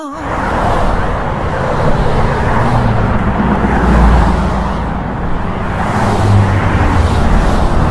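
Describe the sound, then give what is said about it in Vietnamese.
Steady engine and road rumble of a car driving toward the city, a continuous, fairly loud drone with gentle swells and no talking. “Kha Lương lái xe đưa Tần Cẩm về thành phố.”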